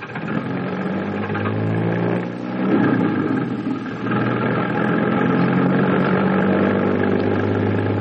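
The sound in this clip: Car engine running as the car starts to drive off, a steady low-to-mid rumbling hum that shifts briefly in the middle, then settles into an even drone.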